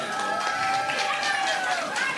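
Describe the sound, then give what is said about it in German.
Audience applause for a departing guest on a German entertainment show: a continuous, even wash of many clapping hands, with faint voices rising through it. “Okay, tschüss, Luis. Applaus für Luis.”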